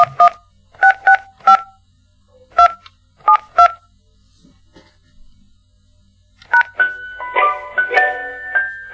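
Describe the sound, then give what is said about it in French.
Touch-tone keypad beeps as a customer number is keyed into an internet provider's automated phone line: several crisp dual tones in short, irregular bursts, followed after a pause by a busier stretch of tones. “Veuillez composer votre numéro client, indiqué sur votre courrier de confirmation d'abonnement.”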